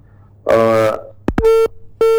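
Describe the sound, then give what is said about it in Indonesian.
Telephone line tones follow a call that has been cut off: a longer buzzy tone, then a few short, steady electronic tone bursts separated by brief gaps. “Oke, terputus, mungkin bisa kita mencoba untuk menghubungi kembali ya untuk ngobrol bersama Bapak Camat Suranenggala ya,”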